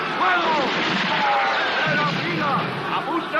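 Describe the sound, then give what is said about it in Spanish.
A musket volley is fired on command, a loud booming blast that blends with shouted commands over a steady, noisy din. “¡Fuego! ¡Primera fila! ¡Apunten! ¡Fuego!”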